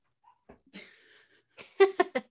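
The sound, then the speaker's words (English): A small dog barks in the background with three quick, faint, high yaps near the end, after some softer scattered sounds. “the little one is barking in the background.”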